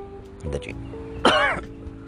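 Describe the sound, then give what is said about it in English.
Coughing and throat clearing come in two short, rough bursts, the second louder and longer. No other sound competes with them. “excuse me one second. Sorry about that. Had something in my throat.”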